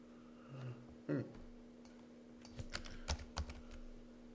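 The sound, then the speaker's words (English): Keys clacking as a search word is typed on a computer keyboard: a few quiet, irregular clicks, then a short quick cluster of taps toward the end. “Let's just type in alive. Oh, didn't find it. Let's try here, alive.”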